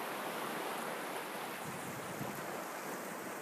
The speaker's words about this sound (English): And we can hear the waves,